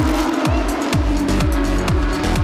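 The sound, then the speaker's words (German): Porsche Carrera Cup race cars at Spa in the Ardennes, part of a 29-car field, roar loudly. Engines rev hard through many quick, repeated gear changes in a continuous, rasping howl. “Auch hier wieder dieses grandiose Starterfeld der 29 Cup Porsche und dieser Sound, der die Ardennen veredelt.”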